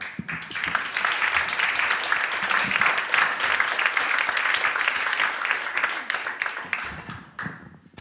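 Dense, sustained applause from an audience welcoming a poet to a performance in Seattle. It stays steady throughout and thins slightly toward the end.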